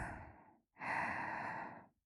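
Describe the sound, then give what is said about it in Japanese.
A deep breath drawn in, heard as two soft, airy breath sounds, the second longer and fuller, quiet and with no talk. “ほら、深呼吸。力を抜きながら、吸って。”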